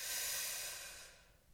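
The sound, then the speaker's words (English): A single long inhale through the nose: a steady, breathy hiss that starts strong and tapers off over about a second and a half, with no talking. “So let's breathe in through the nose.”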